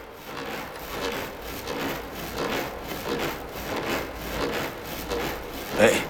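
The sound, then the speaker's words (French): Coiled hose, hung by both ends from a tree branch as a swing, rubbing against the branch as it moves: a steady run of soft, raspy, creaking strokes in a regular back-and-forth rhythm, with one sharper squeak near the end. “J'ai accroché les deux bouts à la branche d'un arbre et ça me fait comme une balançoire. Et quand je me balance, ça frotte et ça fait du bruit.”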